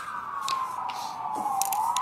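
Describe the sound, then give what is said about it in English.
Sirens of a presidential motorcade in Warsaw sound as a faint, sustained wailing tone that dips slowly and then climbs again near the end, over a low background hum. “You can hear the sirens behind me. That is President Biden's on the move”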